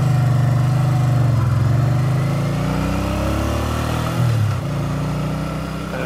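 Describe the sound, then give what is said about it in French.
A four-cylinder motorcycle engine runs on one cylinder only, the other three without spark plugs. It gives a loud, low, steady throbbing drone with slight shifts in pitch and a brief dip near the end. “C'était le bruit d'un monocylindre, malheureusement. Il y avait qu'un cylindre.”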